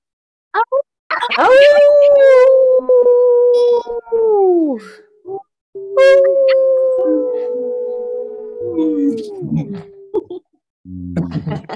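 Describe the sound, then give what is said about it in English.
A group of people howl together over an online call at a new-moon workshop, with short yelps leading into two long, sustained, wavering howls that sag in pitch at their ends, then a few scattered calls. “let's all take ourselves off mute and howl out”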